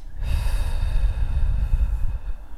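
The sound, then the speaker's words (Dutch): Calm, slow breathing during a guided relaxation exercise: a long, steady rush of breath lasting about two seconds, soft and airy over a low rumble, with no talking. “Adem rustig in. En adem rustig uit.”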